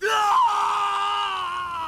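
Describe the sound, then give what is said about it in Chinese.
An acted scream of pain from a young man struck by a torture curse in an audiobook: one loud, sustained, strained cry lasting about two seconds, with its pitch sagging slightly toward the end. “空气中顿时充满了塞德里克的尖叫。”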